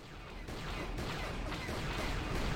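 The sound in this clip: Blaster shots fired at flying targets in a video game form a loud, dense stream of rapid, crackling bursts over a continuous low rumble, with a few sharper hits standing out.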